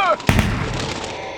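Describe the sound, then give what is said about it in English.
Gunfire opening a hunt: a sharp blast, then a smaller second crack, followed by a rumbling tail that fades over about a second. A brief voice comes just before the shots. “What you just heard were the opening shots in the Vatican's annual seraphim hunt,”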